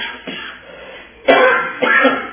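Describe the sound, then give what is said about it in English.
A few coughs during a spoken Bible lesson, coming as short rough bursts with quieter gaps between them. “One more cough.”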